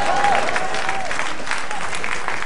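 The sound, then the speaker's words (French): Audience applause during a sermon, a dense, steady wash of clapping from many hands with a voice heard briefly at the start. “Oh, tu es en train d'acclamer, mais tu sais ce que tu dis.”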